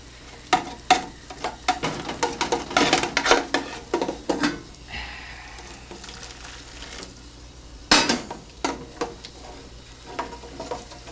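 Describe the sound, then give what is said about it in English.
A spoon stirs thickening gravy in a pot, giving many irregular scraping and clinking strokes over a soft sizzle. The strokes come in uneven bursts, with a pause in the middle. “You've got lumpy gravy. It won't be when it's cooked. That's why I'm standing here stirring it so it won't get lumpy.”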